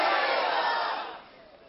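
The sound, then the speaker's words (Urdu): A crowd shouts a religious slogan together at a religious quiz event: a loud, broad burst of many voices at once that holds briefly, then fades to a softer tail. “نعرہ لگائے فیضان اعلی حضرت.”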